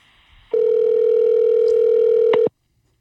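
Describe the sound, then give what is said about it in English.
Steady telephone dial tone heard while placing a call, a loud unbroken single tone lasting about two seconds before it cuts off abruptly, with a brief click just before the end and faint background hiss around it. “We are calling Johanny.”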